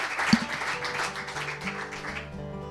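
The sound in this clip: Audience applause welcoming a comedian to the stage, a moderate burst of clapping that gradually fades while a voice begins speaking toward the end.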